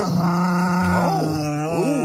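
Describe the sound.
A dog growling in a drawn-out, low, continuous rumble, moderately loud and with no talk over it, broken by a few short rising whine-like tones near the end.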